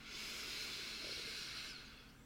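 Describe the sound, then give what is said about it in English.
A single slow, deep breath taken during a guided relaxation exercise comes through as a soft, steady airy hiss that swells and holds for about two seconds before easing off slightly, faint and alone. “Let's take a nice, deep, beautiful first breath of the day or last breath of the day in”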